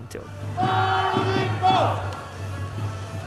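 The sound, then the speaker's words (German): Fans in a baseball stadium crowd sing chants for the Fubon Guardians while dancing along with cheerleaders, a loud massed roar carrying steady sung tones and a few brief whistle-like notes. “Inzwischen ist das Spiel im Stadion in vollem Gange. Die Ränge stehen, das Publikum tanzt den Cheerleadern nach und singt seine Fangesänge.”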